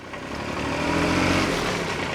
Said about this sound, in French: Donc j'ai fait quelques petites manœuvres et voilà, j'ai pu tester un Massey Ferguson.